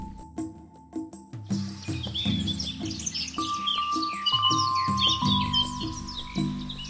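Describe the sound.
A spotted deer's call in the forest, made up of many short, high, bird-like chirps and tweets that repeat quickly over several seconds, above low sustained tones.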